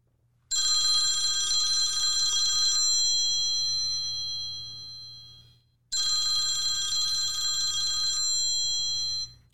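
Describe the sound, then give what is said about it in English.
An outgoing telephone call rings with two long, bright electronic rings separated by a brief pause. The rings are loud and heard alone. “So, this is the commissioner calling Dave Hickey, the athletic director from Arizona.”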